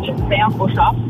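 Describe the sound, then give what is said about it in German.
Car driving, its low, steady engine and road rumble running beneath a person talking on a phone call. “man hört ein bisschen im Hintergrund. Du bist mit dem Auto unterwegs.”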